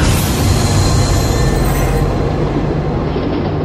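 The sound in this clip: A midnight train runs on rails with a loud, steady, continuous rumble and rattling hiss that holds throughout. No voices are heard.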